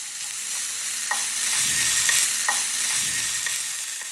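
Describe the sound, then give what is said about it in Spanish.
Onion and bell pepper sizzle in hot oil in a pot, a steady crackling hiss with a few faint clicks of stirring through the sizzle. “En una olla con aceite caliente, agregar la cebolla y el morrón.”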